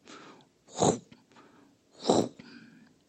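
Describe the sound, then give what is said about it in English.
A voice imitates boots crunching on hard, frozen snow, making two breathy, gritty crunches separated by a short pause. “the snow was hard, so he could hear his own boots on the snow going like”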